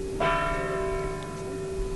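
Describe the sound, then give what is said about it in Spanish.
A single cathedral bell stroke tolls as a religious procession with a gothic crucifix leaves the doors, a sharp metallic strike followed by a long, steady ringing hum that slowly fades. “mientras sigue el tañir de las campanas.”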